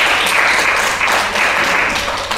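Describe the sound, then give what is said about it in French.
Audience applause during a church sermon, with dense, steady clapping that stays loud from start to finish. “Acclamation pour elle.”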